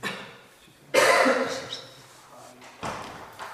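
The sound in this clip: A window being opened or closed during a Sanskrit-to-Hungarian translation lesson: a sudden onset into a sustained rattling scrape lasting over a second, then a second, shorter burst later.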